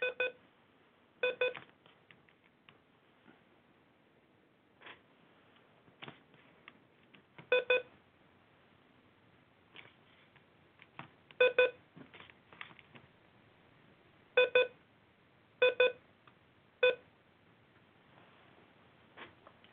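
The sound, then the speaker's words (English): A work laptop gives out many short, bright electronic beeps in irregular bursts, some doubled, with quiet pauses between them and no voices. “And sorry for the beeping. As you know, it's a day that ends in Y, so my work laptop won't shut the fuck up.”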